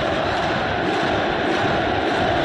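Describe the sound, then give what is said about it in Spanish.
Football crowd singing in a stadium in Córdoba as Boca's players take the field: a steady, dense roar of massed voices that continues without a break. “Canta el público.”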